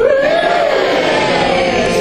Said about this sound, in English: All right, excited, like you're like, yay, we made it to the last bit.